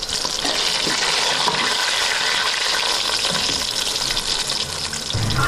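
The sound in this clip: Mushrooms sizzle in a pan as they fry, after being steamed first, with onions to be browned alongside them: a steady, dense crackle and hiss that runs unbroken throughout, with no voices.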